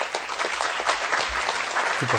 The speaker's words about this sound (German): Ja, das war jetzt gerade die Pause für den Applaus.